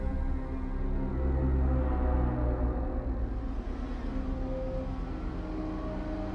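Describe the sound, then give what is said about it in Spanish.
A distant car engine hums as a steady, low drone that holds without a break from start to finish. “A lo lejos escuché el zumbido de un motor de coche.”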